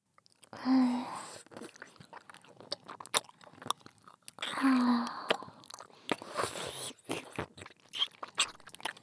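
Biting and chewing a Chupa Chups lollipop on a stick: many small, irregular crunches and wet clicks. Quiet overall, with two brief, louder, noisier swells partway through.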